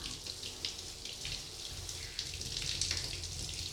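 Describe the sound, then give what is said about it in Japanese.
Warm water is poured slowly over the nape of the neck, making a steady, continuous splashing and trickling that slightly swells toward the end, with no talk. “じゃあ、ゆっくりかけていきまーす。もし暑かったら言ってね。はーい。じゃあ、まずはうなじから流していきまーす。”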